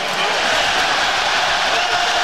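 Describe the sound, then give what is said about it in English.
A dense, continuous crowd roar follows the New York Knicks winning Game 5 of the NBA Finals and the championship. It is a loud, steady wash of many voices shouting and cheering, without pauses, across the whole short stretch. “That was the sound of the New York Knicks winning Game 5 of the NBA Finals and ultimately winning the NBA Championship.”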